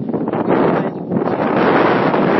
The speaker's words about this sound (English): for some reason, the wind is coming.